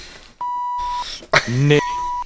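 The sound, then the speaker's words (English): Two steady electronic beep tones at the same mid pitch, the first about half a second long and the second slightly shorter, separated by a short burst of voice. “No, you beeped it in the wrong place”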